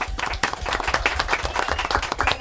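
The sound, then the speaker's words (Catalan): Applause from an audience rewarding a correct answer in a quiz: sharp, distinct hand claps in a quick, uneven patter at moderate loudness, with no talk over them. “I dos encertat. Un aplaudiment, molt bé.”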